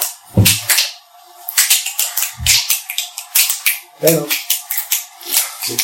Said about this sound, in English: Double snap. Okay. Double snap.